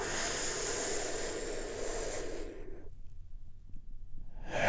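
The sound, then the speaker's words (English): A big, deep breath taken together during a guided healing meditation: a long, soft, breathy rush that fades out after about three seconds, then a new breath starts at the end. “just taking a big, deep, healing breath. All together, here we go”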